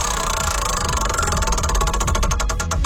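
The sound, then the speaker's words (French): Prize wheel spun on a game show, giving a loud run of rapid ticks over a low hum; the clicks spread farther apart as the wheel slows toward the end. “On tourne la roue juste pour toi. C'est parti.”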